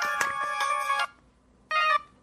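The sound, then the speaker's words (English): A pink flip mobile phone rings inside a purse: two bursts of a bright electronic ringtone melody, a longer one and then a short one after a brief silence, with no talking. “sound came from inside Miss George's purse. Before I could stop myself, I reached for her candy floss pink mobile phone and flipped it open.”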